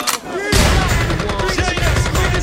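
A gunfire sound effect breaks in suddenly after a brief lead-in as a dense, rattling burst of rapid shots, a loud fusillade that keeps going to the end, with some tonal sound mixed in.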